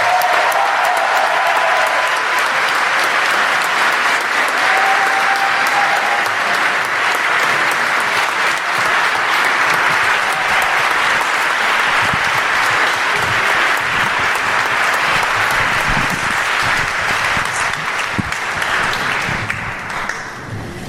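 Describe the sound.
A large audience applauds to welcome three speakers to the stage, a loud, even wash of many hands clapping that holds steady for about twenty seconds before thinning slightly at the end.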